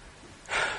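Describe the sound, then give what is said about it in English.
A preacher draws one short, quick breath mid-sermon, a brief airy intake that swells suddenly after near silence. “Let me get a breath because I get excited at this, you know. I have to gather myself together.”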